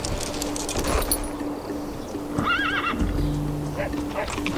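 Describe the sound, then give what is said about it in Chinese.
A horse on open grassland at dawn, saddled for the journey, lets out a loud, wavering whinny midway, with clip-clopping hooves and a steady background hum around it. “草原天刚放亮，索南已备好马鞍，准备启程。”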